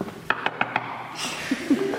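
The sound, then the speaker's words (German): Four quick, sharp knocks in a steady rhythm, as when knocking on a door, from a storyteller acting out his tale in front of listeners. Fainter sounds follow. “Er ging vor die Tür, klopft an.”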